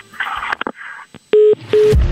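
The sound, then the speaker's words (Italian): Telephone tones as a prank call is placed to an old woman from the Veneto: a few sharp clicks, then two steady, loud mid-pitched beeps with a short gap between them. “Adesso, bisogna completare lo scherzo telefonico, chiamando la vecchia veneta Lancia Caldaie.”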